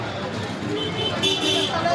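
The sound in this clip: Street traffic noise in Delhi's old town, heard beside a tiny shop selling horns: a dense, steady roar of vehicles, with short horn toots cutting through it in the second half.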